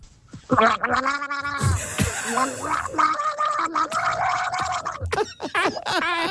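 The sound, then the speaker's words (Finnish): Someone gargles loudly, a voiced, bubbling warble that wavers in pitch and rattles on with brief breaks, ending in a few short gurgling spurts. “Kurlaakse!”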